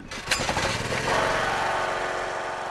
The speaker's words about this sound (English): When the generator started, a light came on in a window, which served as our way into the second floor.